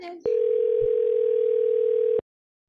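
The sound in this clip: A telephone dial tone plays while a phone number is being dialed, one steady unbroken tone of about two seconds that cuts off abruptly. A brief voice is heard just before the tone begins.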